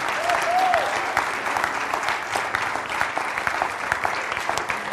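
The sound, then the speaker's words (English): Applause from a church audience welcoming the mothers, a dense and steady wash of many hands clapping that stays loud and even throughout. “Put your hands together and welcome with me all our moms.”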